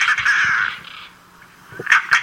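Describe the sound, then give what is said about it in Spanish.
European roller, the bird named for the rattle it resembles, gives a harsh, rasping rattle lasting about a second. After a short lull come two brief, loud, scratchy calls. “Y aquí escuchamos su cántico, el porqué de Carraca, ¿no? Porque se asemeja a este instrumento que se...”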